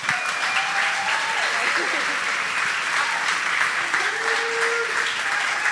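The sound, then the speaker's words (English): Audience applause welcomes guests Jimmy and Gina Horner on stage, a loud, sustained round of clapping throughout with voices calling out over it. “Why don't you stand up and help me welcome our friends Jimmy and Gina Horner.”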